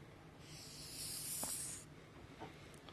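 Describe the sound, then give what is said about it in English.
A marker scratches a chart onto a board with a faint, hissing stroke under a second long, followed by a few light taps. “I'm going to write the chart up here that so many of us are familiar with.”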